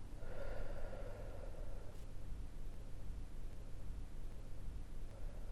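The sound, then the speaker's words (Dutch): One long, soft exhale during a guided breathing meditation, rising as a breathy rush near the start and fading gradually over a steady background hiss. “Voor de laatste keer adem in. En adem uit.”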